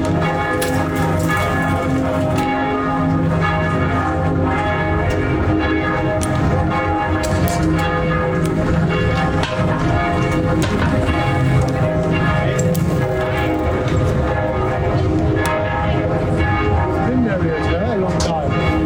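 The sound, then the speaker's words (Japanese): A bell rings at nine in the evening. Dense, sustained ringing tones run steadily through the whole stretch, with talk audible beneath them. “夜9時の鐘の音が響いています。”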